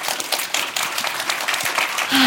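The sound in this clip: An audience applauds to welcome two authors onto the stage, a steady, dense wash of many hands clapping throughout.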